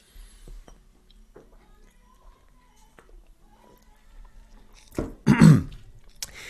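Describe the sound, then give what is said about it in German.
Quiet sips from a bottle of Fritz Cola, followed near the end by a louder gulp and a throaty exhale, with near silence before it. “Allerdings muss ich jetzt ein dickes Aber setzen und das erkläre ich euch, nachdem ich hier ein bisschen von meiner Fritz Cola getrunken habe. Moment.”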